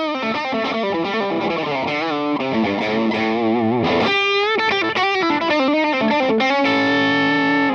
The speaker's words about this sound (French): Le son avec l'overdrive en plus.